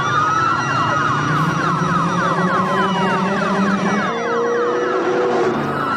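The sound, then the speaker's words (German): Police sirens wail through a car chase scene in a film, overlapping wailing and rapid yelping siren tones that sound loud and continuous from start to end. “Und dann ist ja die Szene, wo sie dann auf den grossen Platz zu fahren kommen mit ihrem Bullenmobil, oder? Ja. Und hinten dran quasi die halbe US-Army.”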